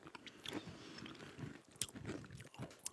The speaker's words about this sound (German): Wenn es euch aufgefallen ist, wir essen heute Kekse.